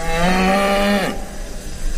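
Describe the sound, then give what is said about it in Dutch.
Mother cow mooing for her calf, which has been taken away: one long, loud, low moo with a rich harmonic tone that bends downward at its end and trails off. “We luisteren eerst naar het universele geluid dat de moederkoe maakt die haar kalf roept, waarvan ze weet dat het nooit meer terug gaat komen.”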